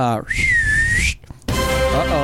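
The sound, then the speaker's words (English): A person whistles one long, high, sustained note that stays mostly steady and lifts slightly at its end, with someone talking just before and after it. “So on the count of three, I'm going to whistle them in.”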